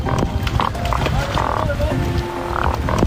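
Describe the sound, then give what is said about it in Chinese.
Grunting croaks of large yellow croaker fish, made by squeezing the swim bladder, recorded at farmed net pens. Many low, rough croaks repeat unevenly over a constant noisy background. “这就是大黄鱼发出的声音， 哼唧哼唧的。 它是通过鱼漂挤压发出的声音，”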